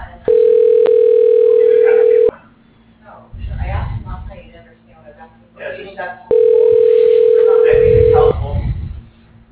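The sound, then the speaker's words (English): Telephone tones as an outgoing call is dialed to a business line: two long steady beeps of about two seconds each, separated by a gap of voices and other sounds. “Dialing.”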